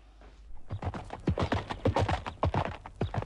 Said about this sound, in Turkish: Hemen atına atla bekçi Dünyanın öbür ucunda da olsa bul getir onu bana Çabuk çabuk hadi